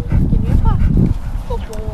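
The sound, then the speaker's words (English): A dog with golden fur and floppy ears gives a few short, high whines and yips while doing tricks with a woman in a sunny, breezy jail parking lot. The dog sounds come through steady crowd chatter and talk. “People gather around a woman and a dog doing some tricks.”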